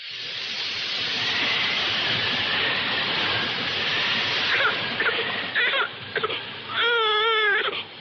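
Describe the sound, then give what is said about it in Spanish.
A week-old baby girl cries in a loud, continuous, high wail that breaks toward the end into strained, wavering sobs. “¿Qué le pasa a la niña? Está bien. Ahora dejará de llorar.”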